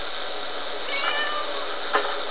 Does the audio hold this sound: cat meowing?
yes